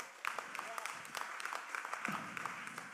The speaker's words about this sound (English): Put your hands together. Let them know you're here.